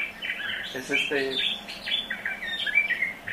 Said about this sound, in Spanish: Es esta especie, es el cuitlacoche de Cozumel, y parece que debido a las perturbaciones humanas ya se extinguió su canto.